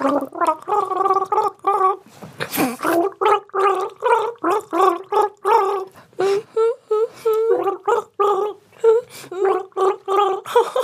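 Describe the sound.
A person gargles a pop song melody as a guessing game, producing many short bubbly, voiced bursts in a sung rhythm. The gargled notes are separated by brief gaps and hold a fairly steady middle pitch.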